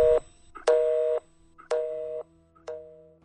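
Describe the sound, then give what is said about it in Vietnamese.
A busy tone after a telephone call is hung up: a steady series of evenly spaced electronic beeps, each a short flat tone separated by equal gaps of silence. “Dập máy rồi.”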